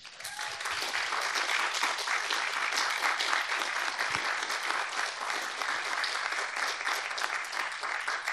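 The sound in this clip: A crowd at a debt and climate justice campaign event applauds to welcome the panelists. The clapping swells quickly at the start, then stays a full, even roar of many hands until the end.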